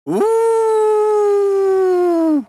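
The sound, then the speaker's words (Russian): A loud, single long howl from a wild beast rises quickly in pitch at the start, holds a steady, harmonically rich tone, then drops away sharply at the end. “Разносится громкий звериный вой прямо за грудой камней.”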